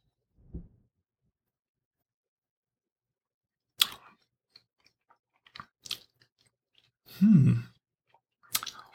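Quiet sipping and tasting of red wine: a few isolated wet mouth clicks and a slightly longer slurping mouth sound near the end, separated by stretches of silence.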